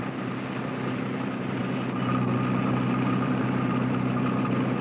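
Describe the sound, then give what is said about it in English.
Engine of a convertible car pulling ahead of a bus gives a steady, dense drone with broad hiss, steady in level and a little louder in the second half. “Majak pulls his convertible ahead of the bus and stops at the next station.”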